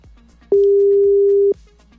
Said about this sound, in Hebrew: בוא ננסה עוד פעם אחת. לא עונה.